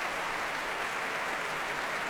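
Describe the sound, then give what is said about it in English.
Applause for a choir in a concert hall: a dense, even wash of many hands clapping continuously, with no breaks or distinct individual claps. “He claps and applauds the choir himself.”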